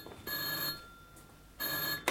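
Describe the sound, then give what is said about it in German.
An old-style telephone bell rings in a night watchman's office in a warehouse, with two loud, bright bursts of rapid ringing separated by a short quiet pause. “Das ist das Telefon im Büro des Nachtwächters.”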